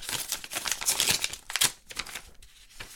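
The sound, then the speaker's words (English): A letter envelope is torn open, faint papery crinkling and ripping in a dense run of short bursts that thins out over a few seconds. “I don't get a lot of letters from the inside. And so I'm gonna go ahead and open this up.”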